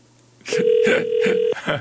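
A mobile phone call's dialing tone: a steady electronic tone holds for about a second, with a few other brief sounds over it.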